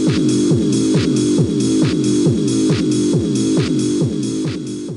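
Rave dance music with a fast, steady pounding beat under layered electronic synth tones, loud and unbroken throughout.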